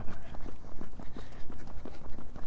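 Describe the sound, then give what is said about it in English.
Running footsteps of a man out for a jog: many soft, even thuds in a quick steady rhythm over constant background noise. “Alright. Run for 1 minute. Alright, we'll run for 1 minute.”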